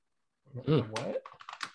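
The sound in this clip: Quick typing on a computer keyboard to look something up: a short burst of light, rapid clicks follows a brief voice.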